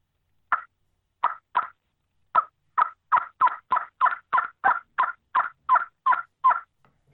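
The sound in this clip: A hunting game call is blown with the hand slid about half an inch up the barrel to shrink the sound chamber. It gives sixteen short, sharp, evenly spaced notes in a steady run, with no voices.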